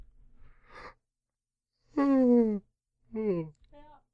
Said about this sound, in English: If I yawn now, like this,